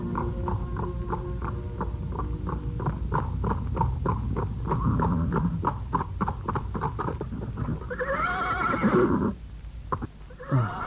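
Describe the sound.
A horse's hooves clip-clop in a steady, even rhythm for several seconds, then the horse gives a loud, wavering neigh and the hoofbeats fade.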